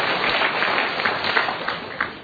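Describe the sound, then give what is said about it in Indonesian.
Studio audience applause on a motivational talk show, a thick wash of clapping that holds steady throughout with a few slightly louder swells. “Tepuk tangan untuk Ibu Dina.”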